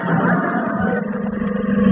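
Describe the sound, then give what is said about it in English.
An arriving police car, heard as a steady, low engine drone that holds for the whole stretch with no voices over it. “Oh, here comes the police car.”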